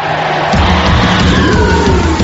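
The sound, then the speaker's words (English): Race car engines start up for a NASCAR race: after a half-second hiss, a loud, low, steady roar kicks in and holds to the end over broad noise. “Gentlemen, start your engines!”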